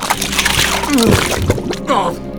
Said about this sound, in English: Help me, Silver! I'm sinking into this infernal swamp!